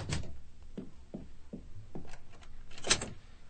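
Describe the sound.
Door being closed and locked, heard as several clunks and clicks in an uneven run, ending with a sharper knock.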